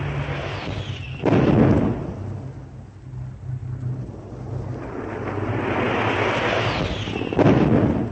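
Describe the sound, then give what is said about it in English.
Bombs dropped by bombers explode during a naval attack, scoring a direct hit on a destroyer: two heavy, loud blasts several seconds apart, joined by a continuous low rumbling roar. “One of the destroyers receives a direct hit from two bombs.”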